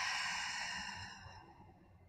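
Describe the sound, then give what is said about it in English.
A long, deep exhaled breath during a guided meditation: a soft, airy rush that starts fairly loud and fades steadily over about two seconds, with no talking. “Go ahead and take a nice deep breath in. And exhale”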